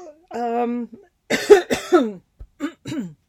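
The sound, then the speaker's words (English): A person coughs and clears their throat as if choking. A drawn-out voiced sound comes first, followed by a run of harsh, rasping coughs and a few shorter ones at the end. “excuse me as I choke on that throat chakra”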